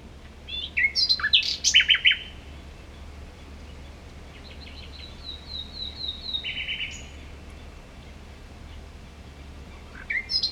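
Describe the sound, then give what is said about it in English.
Dawn chorus of birds singing at daybreak outdoors: a burst of quick chirps and whistles comes first, a softer high trill follows midway, and more chirps come at the end, all over a steady low hum. “that dawn chorus, which is the name for that moment right before it starts to get bright in the morning when all the animals, namely birds, are starting to be the most vocal”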